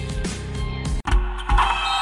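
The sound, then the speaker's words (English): Electric motor whirring of blackout motorized shades moving, a steady hum that drops out briefly midway and then resumes. “Oh, no, I meant those blackout motorized shades.”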